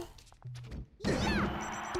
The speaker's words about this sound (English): And he's defeated. I was supposed to do up smash and I did a dash attack grab instead.